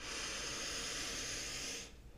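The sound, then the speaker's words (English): A single deep, conscious breath: a steady, airy hiss of moving air that holds for about two seconds, then stops abruptly. “let's pause and take a nice, deep, conscious breath. And let's do that again.”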